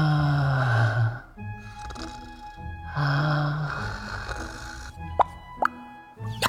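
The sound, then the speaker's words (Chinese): A voice imitates snoring in exaggerated fashion, like someone pretending to sleep: two long, droning snore breaths separated by a quieter pause, followed by a few sharp popping clicks near the end. “这边萧景玉呼呼睡觉，也不知道是真睡了还是醒着的，在这很浮夸的学打呼”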